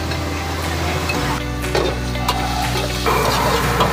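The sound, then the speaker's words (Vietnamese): Meat is stir-fried with lemongrass and shallots. A dense, continuous sizzle runs throughout, with a few scraping knocks from the pan. “Đầu tiên thì các bạn phi nén cho thơm lên. Tiếp theo thì các bạn phi sả lên. Các bạn xào thịt lên.”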